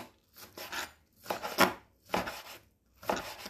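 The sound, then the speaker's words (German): Knife cutting wild garlic into small, fine pieces: four bursts of scratchy, fibrous slicing strokes separated by short pauses, fairly quiet, with no talk. “Und dann schneidest du es in kleine, feine Stückchen runter.”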